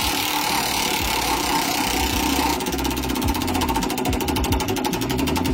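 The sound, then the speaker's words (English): A prize wheel spins for a song-lyric game, giving off a rapid, steady ticking over a continuous whirring hum. The clicks grow sharper and more evenly spaced in the second half. “All right, here is the wheel spinning for song number one.”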